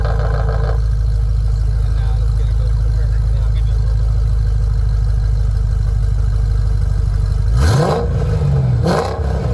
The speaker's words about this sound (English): It's gas. Sure is. It's a V8. Sure is. That, my friends, is sweet music to my ears. That's right. I feel like it's a pushrod V8.